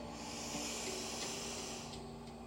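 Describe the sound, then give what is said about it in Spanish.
Slow inhale through the nose during a guided breathing session: a steady, soft, airy hiss that holds at an even level for about two and a half seconds. “Nuevamente, inhala por la nariz.”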